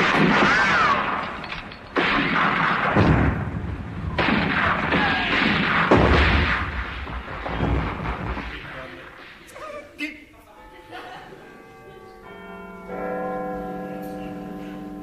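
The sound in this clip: A comedy battle sound effect for the Battle of Spion Kop, with heavy artillery booms and gunfire roaring in a long, dense barrage, then giving way to scattered bell-like ringing tones, with voices talking.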